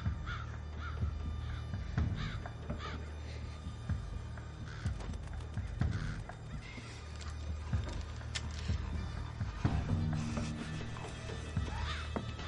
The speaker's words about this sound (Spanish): Una bandada de cuervos vuela ante la casa.